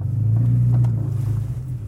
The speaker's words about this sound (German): Ich muss mal eben nur hier äh, das Fahrzeug aus der Einfahrt raus.